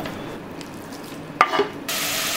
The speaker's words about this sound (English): you want to cook this bacon on a medium-high heat till all the fat is rendered out and the bacon is nice and crispy.